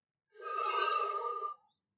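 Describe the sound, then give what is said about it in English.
A single deep breath drawn in, a soft airy rush that swells and holds for just over a second before stopping, heard alone with no talk. “I close my eyes and I wish to be gone from this place. I take a deep breath in”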